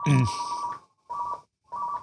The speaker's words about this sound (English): Uh-oh, is that the hotline? The purple phone is ringing.